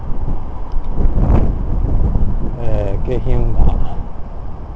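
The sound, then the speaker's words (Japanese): Gusty wind blows across a river as a loud, steady low rumble and buffeting roar throughout, with a voice briefly speaking in the middle. “風をビュービュー、川をビュービュー風が渡ってます。”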